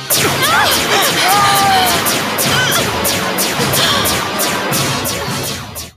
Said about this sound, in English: I want to hear, this is how many times Lieutenant Stone gets shot. But I needed some proof. You want some proof? Then here it is.